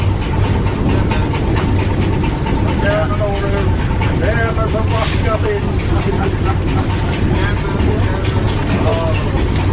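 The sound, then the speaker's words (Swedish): Ferry Arnafjord's engine chugging in to dock at Atløy, a steady, loud low rumble and hum that runs unbroken throughout, with faint voices above it. “Och här kommer Arnafjord tuffande. Och ska pröva att lägga in till Atløy.”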